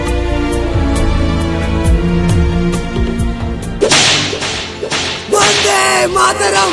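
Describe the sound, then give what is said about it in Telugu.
Repeated sharp whip cracks from a lash striking a fifteen-year-old protester during the freedom struggle ring out loudly over music, the snapping hits coming in quick irregular succession. “చెల్లుమంది కొరడా”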